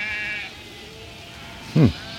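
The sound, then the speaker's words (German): Sheep bleating: a single short, loud bleat rises out of a low, steady background near the end, after a quieter wavering tone at the start. “Naja, unter Schafen. Die Schafe singen. Singen, der Gesang der Schafe. Singen die Schafe?”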